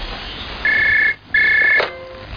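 Telephone ringing heard at the start of a phone call: two long, steady electronic rings with a short pause between them, followed by a brief, lower tone.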